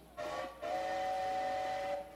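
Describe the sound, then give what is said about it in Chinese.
A train whistle sounds as the train is about to depart: one short blast, then a longer held blast, a bright multi-toned wail heard alone. “哎，火车又要开了啦！”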